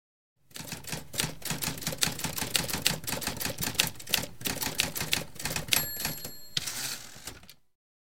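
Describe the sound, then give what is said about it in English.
A typewriter clatters as someone types a novel: fast, steady key strikes in a dense rhythm, with a brief ringing tone near the end before the typing stops. “The morning passed, and Crowley spent it leaning against the window, watching Fel type away at his novel, fingers flying over the keys.”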